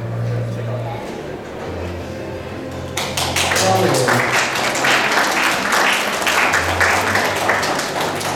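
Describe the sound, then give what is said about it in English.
Applause for a cosplayer at a cosplay contest: talking at first, then a loud burst of clapping breaks out partway and continues to the end, with speech resuming faintly beneath it. “One more round of applause for Allison.”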